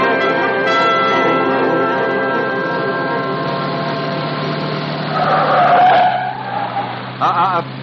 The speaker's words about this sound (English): This car will do 120. Love convertible, don't you?